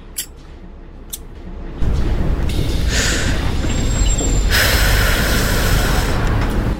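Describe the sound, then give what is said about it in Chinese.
A city bus pulls into a stop: after a quieter start, a loud broad engine rumble sets in and carries on steadily, with bursts of hissing air over it. “756公车进站，本车开往淡江大学。”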